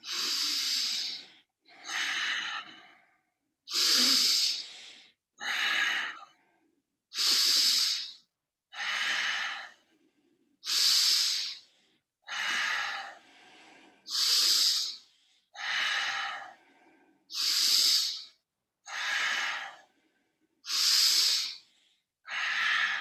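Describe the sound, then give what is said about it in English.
Seven deep breaths during a guided breathing exercise, drawn through the nose or mouth, each inhale and exhale an airy hissing rush. Fourteen evenly paced bursts alternate with short silences, without talk. “So we'll start with the 7 deep breaths through the nose or the mouth.”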